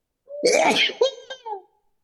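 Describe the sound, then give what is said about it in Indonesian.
A single sneeze opens with a sharp breathy build-up, bursts loudly, then trails off in a brief voiced tail. “Alhamdulillah, sampai bersin”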